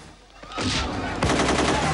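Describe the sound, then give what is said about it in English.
Sniper gunfire erupts into a crowd during a street chase, with two loud bursts of shots followed by continuous harsh, crackling noise that stays loud throughout. “A sniper fires into the crowd, narrowly missing a mounted policeman who reaches for his pistol.”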